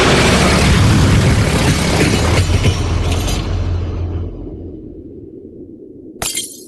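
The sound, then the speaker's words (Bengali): A car crash on a narrow, winding mountain road: a loud, dense smash and crunch that slowly fades toward quiet, then one short sharp knock near the end. “আঘাত লাগল, অপঘাত ঘটল না। অন্য গাড়িটা খানিকটা গড়িয়ে পাহাড়ের গায়ে আটকে থেমে গেল।”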